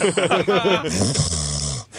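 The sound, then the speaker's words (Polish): Loud snoring from a man, likened to a steamship, rough and rattling: a few quick throaty pulses run into one long, sustained snore that cuts off at the end. “Napisała w mailu, że jej mąż po prostu chrapie jak parostatek.”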